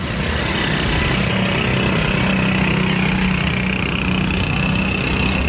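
Noisy rickshaw engines drone continuously, a loud, rough, steady rumble with a buzzing whine on top and no breaks.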